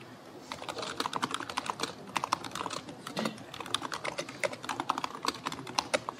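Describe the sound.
Typing on a computer keyboard: many quick, light key clicks in uneven bursts, with occasional louder taps, continuing steadily throughout.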